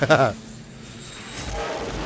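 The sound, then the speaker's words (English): Aircraft landing gear being lowered in a video game: a short burst of sound, then a hush, followed by a low, steady mechanical rumble that swells and holds. “Start the landing cycle? Put down landing gear.”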